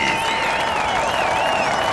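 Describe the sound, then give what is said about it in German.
Audience applause welcoming the jury at a street-style skateboarding championship: a steady, dense wash of clapping and crowd noise throughout, with a wavering, whistle-like tone riding above it. “Bitte begrüßt mit einem kräftigen Applaus unsere Jury.”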